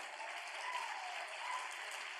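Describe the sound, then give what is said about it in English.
Faint, steady clapping from a church audience during a sermon, a soft even wash of many hands with no clear individual claps standing out. “Come on, if you're going to clap, clap like you mean it.”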